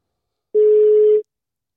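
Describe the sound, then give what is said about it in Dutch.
A telephone rings unanswered: one steady mid-pitched ringback tone lasting under a second, sounding alone and clean against silence. “Nou, hij neemt niet op.”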